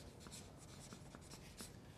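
A marker writes on a board in a faint run of short scratching strokes, quiet and close together, with no talk over it.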